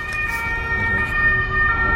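A fire engine siren sounds as a steady, piercing high tone over a low rumble of vehicle noise, loud and continuous throughout with no voices.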